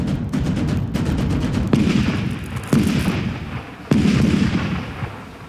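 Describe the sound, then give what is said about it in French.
Cannon fire from 1652 artillery in a battle at Paris: three prominent heavy booms, each trailing off in a long rumbling decay, over a continuous din of further shots. “Les canons sont prêts. Messieurs ! Faites feu !”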